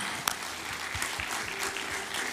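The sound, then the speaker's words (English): A church audience clapping as a clap offering: a steady, dense wash of many hands at moderate loudness, with a few sharper individual claps standing out from the continuous patter. “Give the Lord a praise and a clap offering. Give that.”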